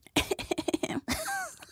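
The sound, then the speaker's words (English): Someone clears their throat in a quick run of short, rough bursts, then finishes with a longer, rasping voiced sound. “I don't know why I cleared my throat like that.”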